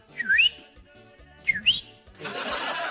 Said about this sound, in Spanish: Ahí cantó el pajarito. ¿Lo escuchó, no? ¿Se escuchó, no? ¿Se escuchó el pajarito?